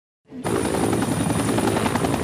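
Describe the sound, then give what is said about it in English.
A helicopter at Kokoda village in Papua New Guinea fades in from silence to a steady, loud, dense roar of engine and rotor that holds without a break. “Prime Minister Anthony Albanese disembarks his helicopter at the fabled Kokoda village”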